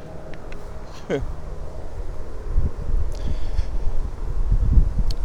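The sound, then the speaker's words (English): Strong outdoor wind buffets the microphone as a dense, low rumbling roar that grows heavier and gustier over the second half. “Wow, big wind. Big wind, can't block it.”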